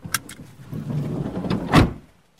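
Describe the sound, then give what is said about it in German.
A small car pulls away out of the narrow streets of a housing estate: a couple of sharp clicks, then a rising engine and road noise that peaks briefly before fading to near quiet. “Die Sozialarbeiter fahren weiter, mit dem Kleinwagen raus aus den engen Straßen der Siedlung.”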